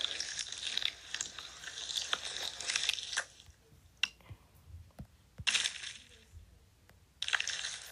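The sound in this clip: Slime being squished and handled gives a wet, crackling squelch in several stretches of sticky popping texture. Sharp isolated clicks and snaps sit between the louder squishes.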